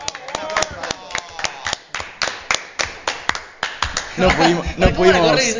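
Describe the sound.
Hands clapping in applause: a steady series of many sharp, evenly spaced claps, with voices rising over the last part.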